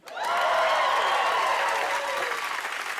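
Audience applause at a stand-up comedy show, dense clapping that swells in quickly and holds strong, with whoops and cheers rising over it in the first half.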